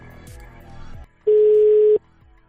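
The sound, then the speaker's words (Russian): A telephone line tone sounds while calling a number back: a single loud, steady, unbroken tone lasting under a second, preceded by quieter, muffled sounds. “Сейчас еще раз перезвоню.”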